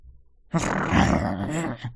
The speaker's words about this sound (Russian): Проворчал волк, устало усаживаясь на землю.